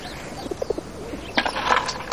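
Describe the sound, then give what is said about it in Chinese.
Pigeon cooing in a few short, soft, low notes, followed by a busier burst of chirping and rustling, with no talk. “你看，这我这一出手，鸽子马上精神。”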